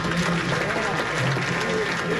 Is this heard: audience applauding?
yes